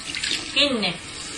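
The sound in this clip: Tap water runs into a sink to rinse hands, a brief, steady splashing hiss with a short voice sound over it.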